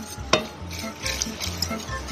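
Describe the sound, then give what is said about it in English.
A whisk works a sauce of warm milk in a pot, reaching into the corners: a sharp metallic clink early, then a steady run of soft, rhythmic scraping and swishing strokes at moderate volume, with no talking. “Whisk really well. Get into the corners of the pot.”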